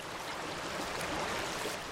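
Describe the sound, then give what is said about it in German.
Treated water flows from a sewage treatment plant outflow into a river, a steady, even rushing wash of noise that holds at the same level throughout, with no voices. “Hier fließt das gereinigte Wasser in einen Fluss, die Hase.”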